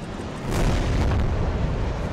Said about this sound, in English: In one of the densest places on the planet, an Israeli airstrike hits a single building.